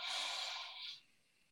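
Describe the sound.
A single deep inhale during a paced breathing exercise: an airy, fairly soft hiss that holds for about a second, then tapers off, with no talk.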